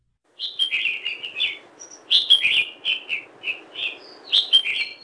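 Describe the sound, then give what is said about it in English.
A red-whiskered bulbul on Oahu calls in several bursts of short, bright, warbling chirps with brief pauses between phrases, clear and alone against a quiet background. “The red-whiskered bulbul is one of two bulbul species that are commonly seen on Oahu.”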